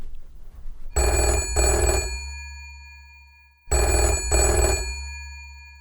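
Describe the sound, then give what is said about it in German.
Telephone ringing with an incoming call: two loud electronic double-rings, each a pair of quick bright bursts, separated by a pause of a couple of seconds, with nothing else heard. “Unser Mentor ruft an. Ich gehe mal ran, okay?”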